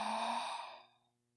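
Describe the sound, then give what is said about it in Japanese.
A single long exhaled breath during a guided breathing exercise, soft and breathy, holding steady for most of a second before tapering away into silence. “吐いて、吸って、”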